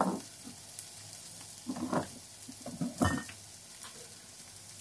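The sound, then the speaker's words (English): Sugar and soy sauce going into a frying pan that holds only a little food: steady sizzling broken by a few louder hissing bursts and light stirring scrapes, with no talk. “there's only a little bit of stuff in my pan. I'm gonna add some sugar and soy sauce.”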